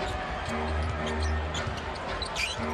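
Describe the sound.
A basketball is dribbled on the court during a professional Warriors–Bulls game, giving repeated dull rubber thumps on hardwood under ongoing talk.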